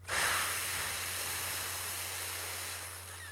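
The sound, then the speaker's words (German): A breathing exercise with a soft exhale through the lips shaped into an F sound: one steady, airy hiss lasting about three seconds, faint and alone, tapering slightly at the end. “Und dann beginne einmal durch die Nase einzuatmen und durch den Mund aus, indem du sowas wie ein F machst.”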